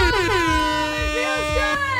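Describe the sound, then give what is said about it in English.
Air horn blaring in one loud, sustained blast that fills the full two seconds, its bright, brassy tone wavering slightly in pitch. “Like an air horn on a Thursday. I know. Our bosses love the air horn.”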